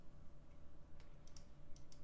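Light computer keyboard typing, a few sparse, faint key clicks over a steady low hum, with no voices.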